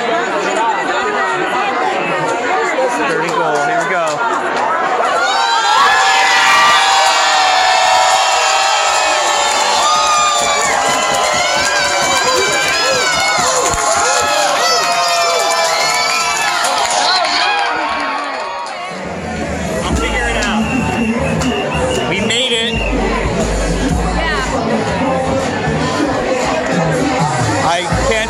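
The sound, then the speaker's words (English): Saints fans in a packed, wall-to-wall New Orleans bar erupt after a score. Crowd chatter gives way to a loud, sustained roar of screaming and whooping, which fades back into dense talk and babble. “I'm gonna go join them and what I imagine will be a sea of Saints fans cheering on their team.”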